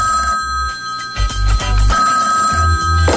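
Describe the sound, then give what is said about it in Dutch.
A telephone rings with a steady, sustained electronic tone across the whole short stretch, while low pulses sound beneath it. “Hij belt alle bevriende artiesten op.”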